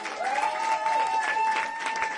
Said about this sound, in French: Je vous demande d'applaudir comme il se doit